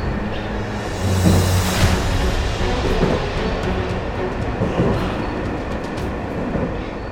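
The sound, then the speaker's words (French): An old, already crowded grey train moves slowly and noisily along the track, giving off a continuous loud rumble and clatter of wheels and carriages with no break throughout. “Un vieux train grisâtre déjà bien rempli s'avança nonchalamment et bruyamment sur la voie.”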